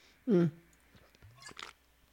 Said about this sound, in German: Ich muss mal eben was trinken. Warte.